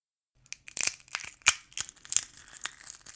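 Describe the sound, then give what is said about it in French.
Four eggs are cracked into a salad bowl, giving a faint series of crisp, crunchy cracks and crackling shell sounds in an uneven rhythm, with no talk. “Je casse 4 œufs dans un saladier.”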